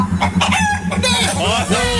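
Chicken clucking and crowing, with a few short clucks followed by a drawn-out crow near the end, sounding loud and steady over a low, evenly pulsing background hum.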